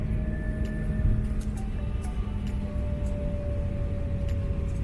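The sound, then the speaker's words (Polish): An airliner landing on a short runway at London City Airport, with thrust reversers open and hard braking: a steady, fairly quiet low roar with faint constant whines and no talk. “Rewersje otwarte, mocne hamowanie. Ale tutaj pas jest krótki, trzeba hamować szybko.”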